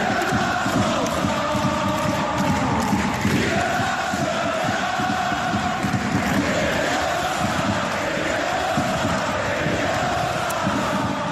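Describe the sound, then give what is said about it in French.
Nantes football supporters sing their match chant for Emiliano Sala, a loud, unbroken wall of massed voices that holds steady in rhythm and volume through the whole stretch. “On se quitte pour Emiliano Sala avec le chant de tous les supporters nantais à chaque match à la 9 minute.”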